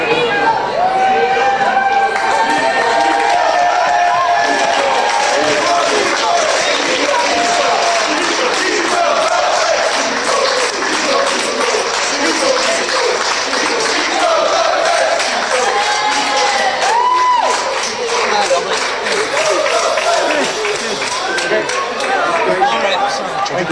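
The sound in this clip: A crowd of family, neighbours and supporters welcomes a World Cup footballer home to Ireland, cheering, shouting and chattering loudly and without a break, with many voices overlapping the whole time.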